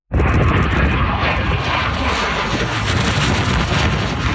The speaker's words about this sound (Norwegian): Det er tidligere denne uken et russisk MiG-29 jagerfly stryker lavt over bakken.